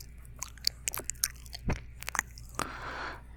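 Close ASMR licking on a microphone: many soft, wet clicks and smacks come in irregular bursts, with a brief slurp and a faint crackle near the end. No talking.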